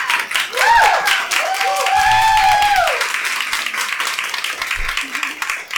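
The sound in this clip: A live event audience applauds a debut fantasy novelist and creative writing lecturer as she is introduced, with sustained, dense clapping that stays loud most of the way and eases slightly near the end.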